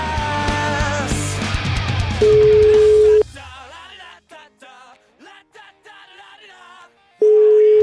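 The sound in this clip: Telephone line tone heard while placing a call: a steady mid-pitched tone sounds twice, each about a second long, after a fading musical passage, with sparse other sounds between the two tones.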